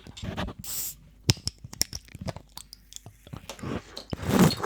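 Someone bites into and chews a sweet, foam-filled treat. A few sharp crunches and clicks come through quiet gaps, with wetter, heavier chewing bursts toward the end.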